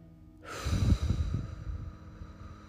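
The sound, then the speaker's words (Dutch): A long, forceful exhale through the mouth during a deep-breathing exercise, emptying the lungs. The breathy rush starts abruptly, peaks early and slowly fades over about two seconds. “En adem dan alles uit via je mond.”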